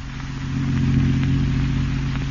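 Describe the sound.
A car being driven, its engine giving a steady, low, continuous drone that swells slightly early on and then holds even, with no other sounds.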